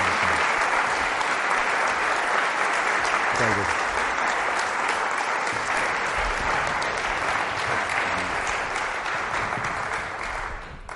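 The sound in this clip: Audience applause welcoming a professor onto the stage: dense, steady clapping from a crowd that carries on without a break and tapers slightly at the very end.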